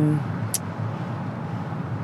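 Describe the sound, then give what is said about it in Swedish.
Steady road and engine rumble from a car driving through Malmö in autumn sunshine, a constant even hiss and low drone without distinct events. “Ja, nu sitter jag här i höstsolen i Malmö och kör.”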